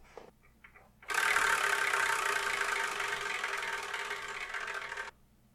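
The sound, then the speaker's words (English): A prize wheel is spun, giving a loud, steady whirring rush that holds for about four seconds, eases slightly, then cuts off suddenly, with quiet stillness before and after. “What I'm going to do is I'm going to spin this Wheel of Manga, and whatever number lands on the manga that's in that spot is the one I review in the next episode”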